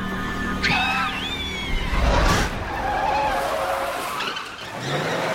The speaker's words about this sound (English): narrowly misses the blood-soaked cheerleader, then skids the car to a halt